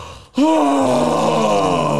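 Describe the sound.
A voice imitates an exaggerated yawn: a loud, drawn-out groaning tone that starts abruptly after a brief quiet and slowly sinks in pitch for nearly two seconds.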